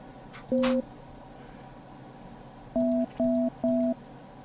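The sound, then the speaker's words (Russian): Telephone line tones: four steady, evenly pitched beeps, a single one first, then a pause and three in a quick even row. “Чё, набираешь? Угу. Так, гудок пошел. Ну, в смысле, набор.”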